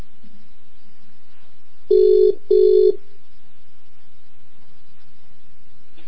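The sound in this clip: Ringing tone of an outgoing telephone call: one double burst of steady buzzing tone, two short pulses in quick succession, set against faint line hiss that continues before and after.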